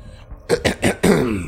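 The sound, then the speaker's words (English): A man clearing his throat: a few short, rough rasping bursts, then a longer voiced, gravelly rumble. Fairly loud. “Christoff clears his throat”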